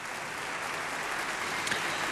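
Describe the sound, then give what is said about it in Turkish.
Applause from a concert hall audience clapping for an orchestra: a dense, steady wash of many hands that holds at an even level throughout, with no voices. “Evet, orkestra üyelerini alkışlıyor salondaki seyirci.”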